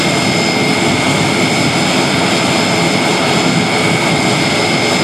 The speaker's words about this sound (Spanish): Así sonaba ese instante en el que el avión del Ejército del Aire aterrizaba en Madrid con uno de esos papamóviles.